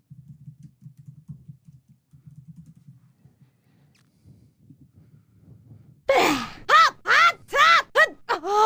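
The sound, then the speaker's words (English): Video game character's jump sound effects: a quick run of short, loud, voiced yelps with arching pitch, several in a row, following a stretch of quiet, low murmuring. “What is this? It's Link jumping.”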